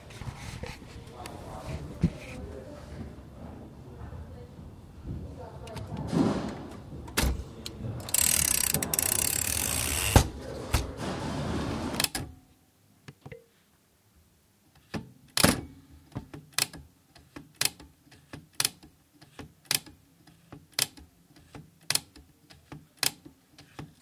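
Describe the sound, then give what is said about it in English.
Typewriter clatter: a dense, busy stretch of rattling keystrokes and mechanical ratcheting, then after a short pause a slow, evenly spaced series of many sharp, loud key strikes. “typewriter one.”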